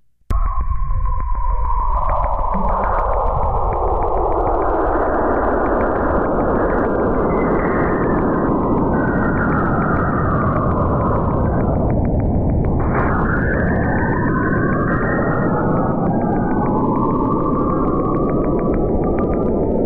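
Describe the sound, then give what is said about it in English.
Saturn space plasma waves, sixteen minutes of data squeezed into under half a minute of audio: eerie, continuous whistling tones that glide downward, then weave in swooping curves, with a sharp dip and recovery midway. “compressed into 28 seconds of audio. And this is what space Saturn plasma trippy stuff sounds like.”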